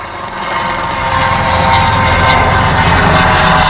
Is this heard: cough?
no